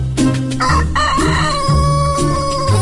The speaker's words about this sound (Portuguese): o galo já cantou.